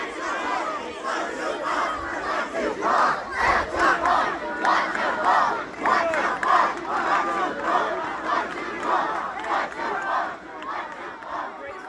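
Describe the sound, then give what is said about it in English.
The Blue team at a summer camp color war chants in unison like Spartans, a loud crowd of voices rising and falling in rhythmic surges of shouting and cheering. “But Blue starts like, wah, wah, like Spartans. And they start chanting. And here's what that sounds like.”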